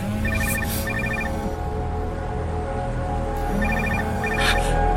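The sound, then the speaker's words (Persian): A telephone rings in two separate bursts of bright, repeated electronic trills, each lasting about a second, with a steady low background underneath. “نه، جوابشو نده، جواب نده. شاید پلیس باشه.”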